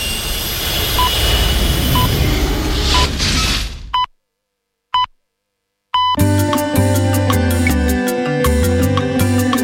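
A spaceship takes off with a loud, jet-like roar that swells for about four seconds, then cuts abruptly to silence before bright electronic music with repeated tones begins.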